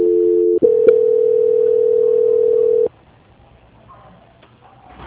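A telephone line tone plays while a call is being transferred: a steady, loud, continuous tone with a brief break near the start. It then cuts off, leaving only faint line hiss.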